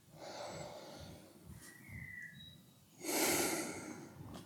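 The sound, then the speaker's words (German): Slow, deep breaths during a mindfulness meditation: soft, airy inhales and exhales, with one louder, fuller breath near the end and no talk over them. “Wenn Sie wollen, können Sie zu Beginn wieder zwei, drei tiefere Atemzüge nehmen.”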